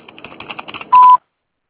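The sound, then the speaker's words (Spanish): A single steady mid-pitched voicemail beep, about a quarter second long, sounds just before a message is recorded on a phone line. A rapid run of fainter clicky tones leads into it, then silence. “tono, grabe su mensaje.”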